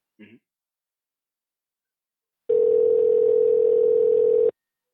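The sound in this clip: A single steady telephone ringback tone lasting about two seconds sounds as a call is placed. It is even in pitch and fairly loud, and a brief faint click comes before it.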